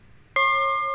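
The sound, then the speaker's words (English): A simple bell is struck once, its clear bright ring starting sharply and then sustaining with a smooth, slowly fading tone. “And that's the sound of a simple bell”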